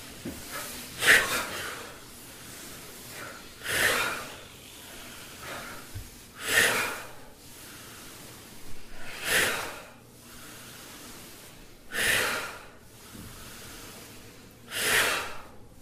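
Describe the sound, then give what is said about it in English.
Forceful cleansing exhalations from a guided breathing exercise: six strong, breathy bursts, evenly spaced about three seconds apart, each rising and fading quickly. Soft breathing sounds fill the gaps, and no one speaks. “So let's do 7 cleansing breath. So you pull up your, with the inhalation, you pull up your hand into a fist, and then with the out breath, you kind of go like this.”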